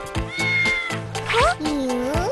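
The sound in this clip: A voice imitating a cat, in the role of a mimicking beluga whale: several drawn-out meows that bend up and down in pitch, loud and close together.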